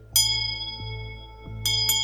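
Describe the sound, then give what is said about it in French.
A bell rings to call the community to dinner in a refectory. It gives three fairly quiet struck tones, the first with a long sustained ring and the last two close together near the end, over a low steady hum. “La cloche sonna pour le dîner.”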